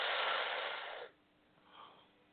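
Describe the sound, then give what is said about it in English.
An inhaled breath during a guided breathing exercise: a smooth, hushed rush of air for about a second, tapering off into quiet. “Let's breathe now. Let's inhale.”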